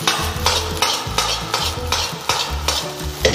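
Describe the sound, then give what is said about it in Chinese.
Rice stir-fried in a wok with green peas and scallions gives a run of many rhythmic scraping tosses over a steady sizzle. The strokes are loud and evenly paced, and no voices are heard. “现在能看到米饭在锅里面弹起来，形成了360度的旋转，再加入青豆，加入葱花”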